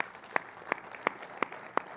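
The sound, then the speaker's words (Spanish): Rhythmic clapping in a church service as the audience applauds the Lord: five sharp, evenly spaced claps in a steady beat over a quiet low background. “Pues lo que damos un aplauso al Señor.”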